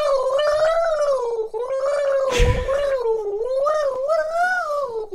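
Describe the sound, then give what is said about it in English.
A person gargles a tune, a wavering, pitched gurgle that rises and falls continuously, broken near the middle by a short burst of noisy sputter. “You did that while gargling.”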